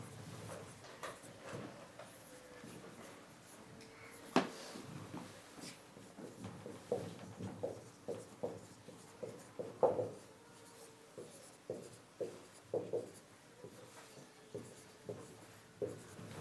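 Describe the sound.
Marker strokes on a board as words are written out, a faint series of short scratchy squeaks and scrapes in an uneven rhythm. Many brief strokes stand alone with no talk over them.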